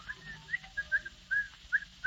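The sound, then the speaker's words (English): A man whistles a cheerful, bouncy tune of short, high notes in a quick, uneven run, heard alone against a faint background. “Down the stairs comes the happily demented Mr. Van Dyke, whistling cheerfully.”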